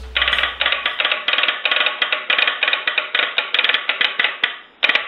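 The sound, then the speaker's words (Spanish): A wireless telegraph sends many rapid, evenly spaced pulses of a harsh buzzing tone. After a brief pause near the end, one more pulse follows. “así suena el telégrafo sin hilos.”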